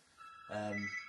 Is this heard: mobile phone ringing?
yes